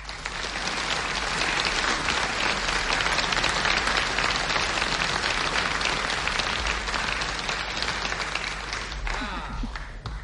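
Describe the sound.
Sustained audience applause welcoming a singer, a dense, steady wash of clapping that holds at even loudness for about ten seconds and thins slightly near the end.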